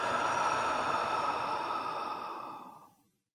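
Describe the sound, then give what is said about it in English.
A single long, slow breath let out during a guided relaxation exercise. A soft, airy hiss starts steady and gradually fades away into silence. “Do that one more time. Breathe in. Let it out.”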